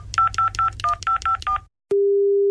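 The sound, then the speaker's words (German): Telephone keypad tones ring out as a number is dialed: seven short, evenly spaced beeps over a low hum, then a brief silence and a steady, sustained line tone. “Moment, ich wähle mal.”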